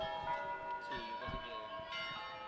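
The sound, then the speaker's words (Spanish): Church bells of the Pilar ringing, several fairly quiet strikes whose rich, sustained tones overlap and hum on between the hits. “Radio Ñapa, luchando contra las campanas del Pilar desde hace más de 100 años.”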